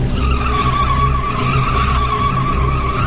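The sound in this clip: A car skids as its driver loses control behind the wheel: a loud, continuous tire screech holds a steady high whine over a low rumbling engine throughout, with no voices.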